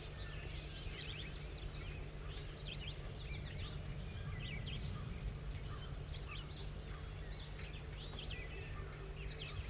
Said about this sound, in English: Start recording bird 5-9 in song.